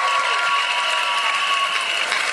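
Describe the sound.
Audience applause welcoming a volunteer who has come up from the back of the room: dense, steady clapping that holds at an even level throughout, with no voices over it.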